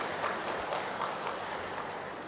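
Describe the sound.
Audience at a talk clapping for themselves, a dense, even wash of many hands that holds steady at moderate loudness for the whole stretch without clear breaks.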